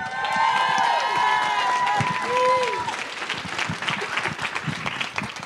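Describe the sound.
An audience bursts into applause and cheering as two guests are welcomed on stage, with several rising whoops early on and then brisk clapping that carries on steadily.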